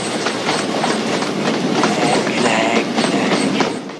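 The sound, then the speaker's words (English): A moving train rumbles past with steady, loud clickety-clack from its wheels on the rails, a dense and continuous roar that holds for the whole stretch without any break. “They run beside the train.”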